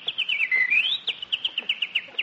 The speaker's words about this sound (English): look at that beautiful bird on your lawn.